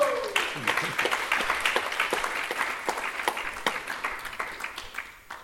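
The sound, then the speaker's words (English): Audience applause at a performing-arts event: many dense, overlapping claps at a steady, moderate level, slowly thinning toward the end. “let's give an applause to Vrindavan Chandra”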